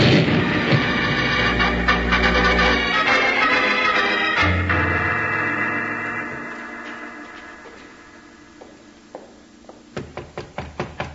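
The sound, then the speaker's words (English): A powder keg explodes in a tunnel as a radio drama effect: a loud, heavy booming roar that slowly fades over several seconds, followed by a quick series of sharp knocks. “Jingles, that's a powder keg and the fuse is burning. Bill, it's getting short. Down, Jingles, it's going to explode.”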